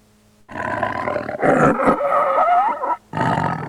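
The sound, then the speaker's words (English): A lion roars in a deep, rumbling growl that swells loud and holds for over two seconds, breaks off for a moment, then returns in a second short burst. “Number one is lion.”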